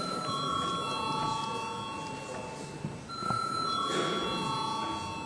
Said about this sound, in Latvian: Lūdzu zvanu.